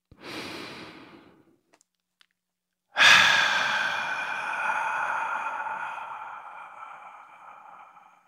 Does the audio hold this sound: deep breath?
yes

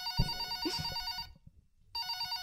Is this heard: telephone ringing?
yes

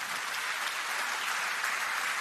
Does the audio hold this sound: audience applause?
yes

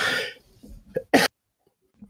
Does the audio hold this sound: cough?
yes

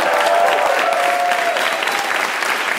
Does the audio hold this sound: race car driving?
no

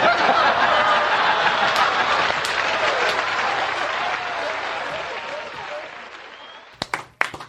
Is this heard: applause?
yes

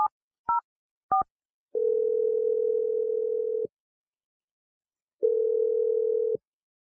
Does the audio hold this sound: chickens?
no

